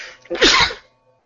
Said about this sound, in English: gives it a sneeze. Sorry about that.